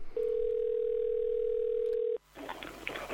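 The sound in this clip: A steady, single-pitched telephone tone sounds on an outgoing prank call. It holds unbroken for about two seconds at an even loudness, then cuts off abruptly and gives way to brief noisy sound.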